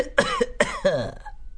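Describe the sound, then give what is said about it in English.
A man gives a polite cough: two short, voiced throat-clearing bursts in quick succession, fairly loud and alone, followed by brief quiet. “He coughed politely and launched into a speedily delivered verse.”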